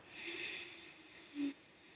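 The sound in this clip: A slow breath drawn in during a guided breathing exercise: a soft, airy hiss that swells and fades, followed by a brief, low puff of air.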